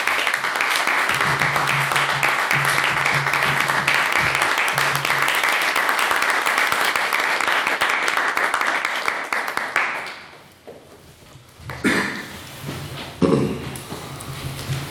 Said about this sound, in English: So now please do put your hands together and welcome up the first speaker for the proposition